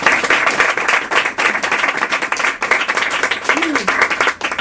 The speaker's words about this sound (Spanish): le podemos dar la bienvenida con un fuerte aplauso a Víctor Gómez y a Nathalie Bellon